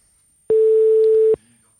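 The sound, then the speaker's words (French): A telephone tone on an unanswered outgoing call: one steady, mid-pitched beep lasting under a second, loud and alone, with near silence before and after. “J'espère qu'il va répondre. Est-ce qu'il va répondre, Alain ? Il faut qu'il réponde.”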